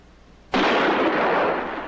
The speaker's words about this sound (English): The 1 bullet's gone. Come on, maybe the gun's empty.